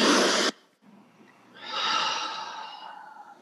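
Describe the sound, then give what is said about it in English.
A deep breath in and out during a guided breathing exercise. A brief, loud rush of air cuts off sharply, then after a pause comes a longer, softer, sighing exhale that fades gradually. “So take another deep breath in and out.”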